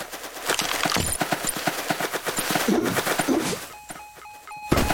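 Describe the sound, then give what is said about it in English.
A time bomb going off in a video game, heard as rapid clattering thumps, then a few short high beeps and a sharp burst at the very end. “Time bomb. Alright, that was my time bomb there.”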